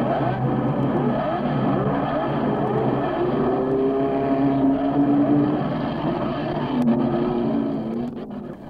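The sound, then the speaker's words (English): Race cars on a racing track during pit stops late in a two-hour race: a continuous loud engine roar with a couple of rising whines that swell and pass, the sound thinning and fading near the end. “On the track, there's no let up after 2 hours of racing. The front runners make their final scheduled pit stop.”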